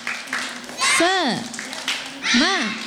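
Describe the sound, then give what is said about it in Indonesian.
Children chant and clap a rhythmic spirit cheer together. Sharp claps punctuate bright, sing-song group voices in a lively repeating pattern. “teman-teman. Tepuk semangat.”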